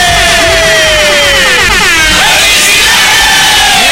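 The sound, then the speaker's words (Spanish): Very loud air horns honking in celebration of a contest prize winner, overlapping blasts that blare without a break, with a slightly wavering pitch. “Quiero 56 bocinazos.”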